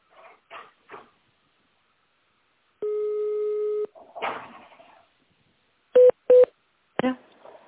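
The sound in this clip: Telephone keypad tones dialing a menu digit on an automated phone menu: two short, sharp beeps close together, preceded by a longer steady tone and a few brief faint bursts.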